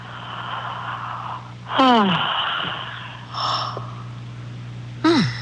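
A deep inhale through an open mouth during a guided breathing exercise: a couple of sharp, wheezy, gasp-like intakes that drop quickly in pitch, over a low, steady hum.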